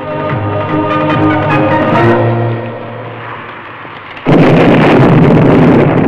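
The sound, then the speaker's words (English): An explosion blasts away a ranch fence. It bursts in suddenly and loudly after a stretch of low, sustained tones, and its roar carries on, broad and heavy, to the end. “The fence is blasted away in a deluge of dust and sparks.”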